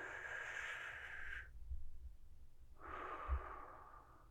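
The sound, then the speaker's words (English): A deep breath taken to relax: a long, airy inhale of about one and a half seconds, a short pause, then an equally long, soft exhale, heard alone without talk. “And let's take a deep breath to relax.”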